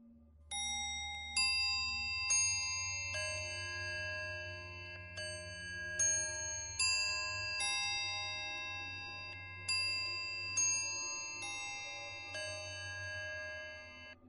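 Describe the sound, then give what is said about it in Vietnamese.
A bell strikes repeatedly while a clock counts the hour at night in an old house. Its bright, ringing metallic tones come in a series of strokes at an uneven pace and overlap as they fade. A steady low hum runs underneath. “Tiếng chuông lại một lần nữa vang lên.”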